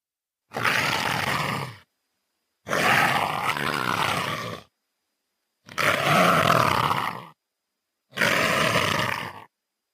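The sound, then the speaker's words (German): A leopard hisses in four long, breathy, rasping bursts, each lasting a second or two and separated by silence, loud and harsh with a throaty, growling edge. “Ja, die Zoologinnen werden es erkannt haben. Es ist das Fauchen eines Leoparden.”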